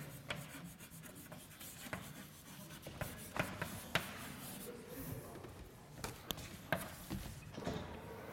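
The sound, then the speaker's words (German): Handwriting, a soft continuous scratching and rubbing of a pen or chalk while writing out a set definition, with faint irregular taps and strokes throughout and no voice. “Also ich schreibe jetzt was ganz Banales.”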